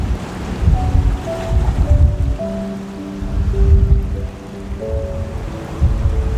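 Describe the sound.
Water waves washing in, a low rolling surge that rises and falls in slow swells, with soft sustained tones layered over the water.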